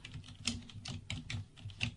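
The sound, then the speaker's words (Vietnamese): Slow, hesitant typing on a computer keyboard by someone glancing between screen and keys, with a handful of faint, separate key clicks spaced unevenly, some slightly louder than others, and no talk. “vừa nhìn lên màn hình, vừa nhìn xuống bàn phím, gõ chữ A, nhưng ngón tay trượt qua chữ S.”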